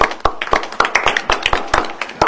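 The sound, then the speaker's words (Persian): Audience clapping on cue, a steady run of many crisp hand claps in a regular, even rhythm, briefly filling the space between spoken introductions. “یه دست مرتب بزنید. بزن دست مرتب.”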